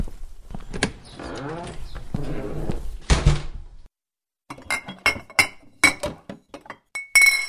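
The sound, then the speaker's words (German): Glass clinks as someone searches for a bottle of schnapps, a string of sharp, irregular clinks and knocks with short pauses between them. “Ich werde mal sehen, ob ich noch ein Schlückchen Schnaps bei mir habe. Dann können wir die Wunde damit etwas auswaschen.”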